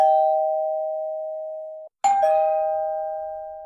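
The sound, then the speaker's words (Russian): A doorbell rings with two long, steady chime tones; the second begins with a sharp strike and then rings on evenly, heard alone with no voices. “Поужинать она не успела. Раздался звонок.”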